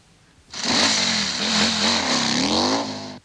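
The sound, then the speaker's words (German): A motorcycle engine revs steadily for close to three seconds. Its pitch wavers up and down as it stays loud and alone, with no voices. “Was hören Sie? Ich höre das Motorrad.”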